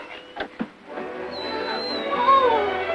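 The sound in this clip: A puppy gives two short, sharp yelps close together, then lets out a drawn-out, wavering whine that grows slightly louder toward the end.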